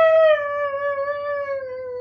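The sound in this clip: A single long animal howl on a full-moon night outdoors: a steady, high, pure tone that slowly sinks in pitch, held alone over a faint, low, pulsing background.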